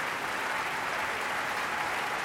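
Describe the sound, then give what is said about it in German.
Dense, steady applause from an opera audience celebrating an Australian composer at his work's premiere, an even wash of many hands clapping with no break. “Und er bedankt sich bei allen Beteiligten, wird gefeiert, umjubelt vom Publikum.”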